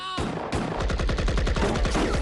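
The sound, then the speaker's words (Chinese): Gunfire from a Japanese army position during a wartime battle: a loud, dense burst of many sharp shots in rapid, uneven succession, like wild automatic fire. “一阵胡乱的射击之后”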